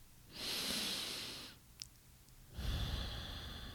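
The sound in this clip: A slow deep breath, heard as two long, soft, airy breathing sounds separated by a short pause. They are quiet and unaccompanied by talk.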